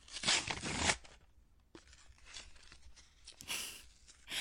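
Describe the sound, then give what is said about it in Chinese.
Paper tears and crinkles as a gift package containing a PS5 console is unwrapped: a few loud rustling bursts with quieter handling noises between them. “喏，给你，你拆开看看。”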